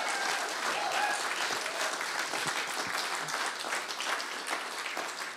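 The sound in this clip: Audience applause welcomes a speaker to the stage after a church worship set. Dense, steady clapping from many hands holds evenly throughout, with no voices standing out.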